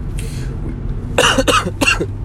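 Someone clears a spit bubble from their throat with three quick, harsh, raspy bursts in close succession after a faint earlier rasp.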